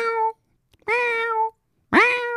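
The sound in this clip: A cat meows from below a balcony on a summer day: three clear, tonal meows with short silent gaps between them, the last cut off at the end.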